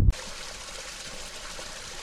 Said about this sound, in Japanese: 今私たちはニュープの霊水が流れる場所に到着しました